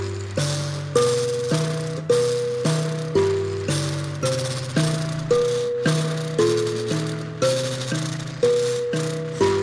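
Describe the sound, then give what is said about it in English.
A Zimbabwean mbira melody line plucked with one thumb: evenly spaced metallic tine notes, each with a buzzing rattle and a quick decay, cycling through a short repeating pattern. “And I play the mbira”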